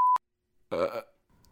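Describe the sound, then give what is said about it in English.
A single short, guttural burp follows a brief electronic tone and a moment of silence. “you burp, okay.”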